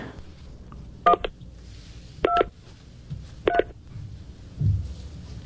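Touch-tone keypad tones as a phone dials a call to the police, in three short bursts of beeps spaced about a second apart over a low background hum.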